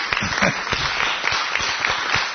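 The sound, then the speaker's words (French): Men in an audience at a talk clap for themselves. The applause is scattered and fairly sparse, with distinct individual claps standing out over a thin bed of clapping throughout. “Est-ce que vous pouvez applaudir pour vous-même, les hommes genrés?”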